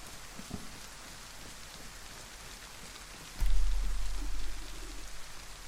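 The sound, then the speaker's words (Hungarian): Steady rain falls in a video game, a constant soft hiss throughout, with a deeper low rumble swelling in partway through and lingering. “Esik eső”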